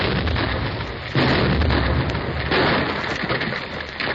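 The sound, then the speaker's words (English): A blast sets off a rockslide down a hill. A sustained noisy roar jumps sharply in loudness with a heavy boom about a second in, then carries on as a dense, crackling rumble of sliding rock. “The big blast will start the whole hill sliding down to my tunnel. It might bury our machinery under 10 feet of rock. That's your business. There she goes.”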